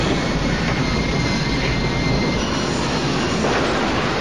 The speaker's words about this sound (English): The front wheels hit the runway and boxes tumble around the baggage compartment near the bomb.